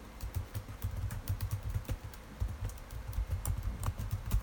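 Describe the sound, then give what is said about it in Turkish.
Quiet clicking of a computer keyboard as an email address is typed, with many light keystrokes in a brisk, slightly uneven rhythm and no talk. “E-posta adresimi yazmadığım için bakın demek ki oturum açmış olsam bile bunu yazmamız istiyormuş. Bunu da öğrenmiş olduk. Hemen yazıyorum.”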